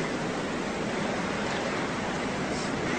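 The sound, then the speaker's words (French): Sea waves at a rising tide make a dense, continuous wash of noise, broad and steady, with no separate breaks or pauses. “La mer est montée.”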